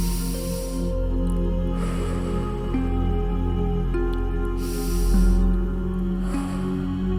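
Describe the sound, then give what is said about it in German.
Deep breaths in and out, airy rushes rising and falling in a slow, steady rhythm over soft sustained musical tones. “Atme noch einmal kräftig ein und aus.”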